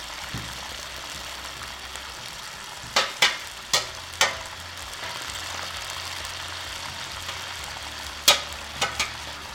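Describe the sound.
Food frying on a gas stove gives a steady sizzling hiss, with several sharp clicks and knocks standing out over it. No voices.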